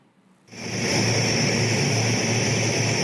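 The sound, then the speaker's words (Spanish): Engine drone of an Ecuadorian Air Force Hercules C-130 military transport aircraft arriving at Guayaquil. It starts abruptly after about half a second and holds as a loud, steady roar with a sustained high whine on top. “A Guayaquil llegó la aeronave Hércules C-130 de la Fuerza Aérea Ecuatoriana para recoger parte de las 14 toneladas de insumos que tienen como destino Venezuela.”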